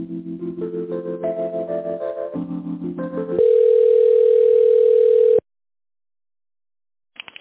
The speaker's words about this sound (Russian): Сейчас, одну минутку. Позвоните бухгалтеру.